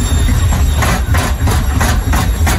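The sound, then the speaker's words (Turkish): A washing machine making loud noises gives a heavy, continuous low rumble with a steady rhythmic clatter pulsing through it. The racket stays loud throughout, with no voices. “Senin de çamaşır makinen böyle sesler çıkarıyorsa vedalaşma zamanı geldi.”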